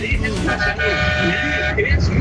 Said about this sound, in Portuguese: Ó, os caras buzinando, ó.